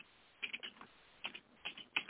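Clicking keystrokes as someone types on a computer keyboard, in a few quick bursts separated by short pauses, with no voices.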